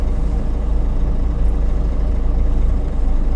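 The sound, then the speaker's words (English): A truck reverses up to a trailer for hitching. Its engine makes a loud, steady low rumble throughout, with no beeps or voices. “So I'm going to get myself lined up with the trailer. Reverse up to it.”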